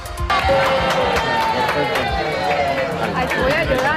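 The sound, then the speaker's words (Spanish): Racing football club supporters cheer and shout after getting their season tickets, a dense, loud crowd roar with overlapping voices and scattered sharp claps running steadily throughout. “Lo que acaban de escuchar son los aplausos y la emoción de los primeros simpatizantes racinguistas que han conseguido su carnet de abonado para esta temporada.”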